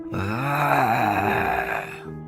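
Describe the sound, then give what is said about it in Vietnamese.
A dragon roar sound effect sounds as a deep, droning growl with a low, wavering tone that dips and swells before settling into a sustained hum, loud and alone for about two seconds. “Tiếng long ngâm tựa như vọng về từ thời viễn cổ xa xăm.”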